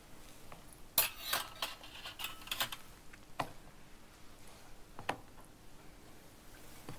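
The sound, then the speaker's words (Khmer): A spoon stirring seasonings, including salt, together in a bowl gives a few scattered faint clinks and scraping taps, with no talking. “ពេលយើងដាក់វាដាក់គ្រឿងវាចូលគ្នាហើយអញ្ចឹងគឺយើងកូរវាឲ្យសព្វ”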